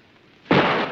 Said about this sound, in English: The mortar explodes right in front of the resistance.